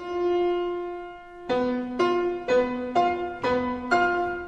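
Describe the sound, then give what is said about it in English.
A tritone, the diminished fifth interval: one note is held alone, then the two notes are struck together six times in an even rhythm, each strike ringing and decaying, with no talk. “a tritone is a simple musical interval. It's one note, and then a second note, three whole steps above it.”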